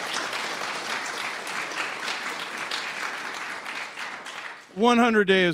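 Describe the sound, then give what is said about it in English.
Warm applause for a panel group at a morning session keeps up as a dense, steady clatter of many hands for several seconds, then fades as a voice begins speaking. “A big hand for our incredible group this morning.”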